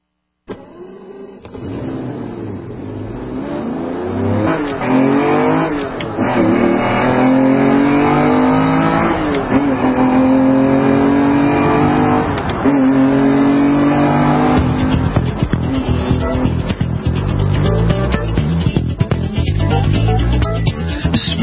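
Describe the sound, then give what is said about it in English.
A car engine revs hard and shifts gears, with its pitch climbing repeatedly and then dropping at each change. The sound is loud and continuous, with no talk. “Oh, that's what I like to hear, those nice clicks between the gears.”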